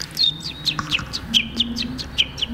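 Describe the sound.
A voice imitates a contented chick with a quick string of high, thin peeping chirps, each one dipping in pitch, repeated in an even, lively rhythm.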